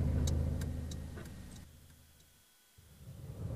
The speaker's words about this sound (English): We seem to have been driving for hours.